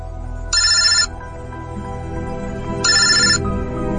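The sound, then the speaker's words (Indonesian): A mobile phone rings with an incoming call, giving two short electronic ringtone bursts separated by a pause of about two seconds, both over a steady low background hum. “Hingga temanku tiba-tiba saja menelponku.”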